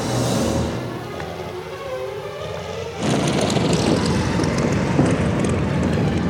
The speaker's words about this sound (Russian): Истребители стреляют по нему. Подбитый самолет теряет высоту.